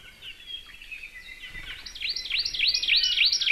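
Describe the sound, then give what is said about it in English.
Song of young ʻakekeʻe birds in Hawaii: high, thin chirping notes that start faint, then become a louder run of rapid, repeated warbling trills, heard alone. “And now they sound like this. Most likely because there are now fewer akeke'e that the young birds can learn their song from.”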